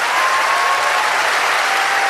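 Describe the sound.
Audience applause at a popular music concert in a large hall, a loud, dense, steady wash of clapping from many hands that holds evenly throughout, with no voices standing out.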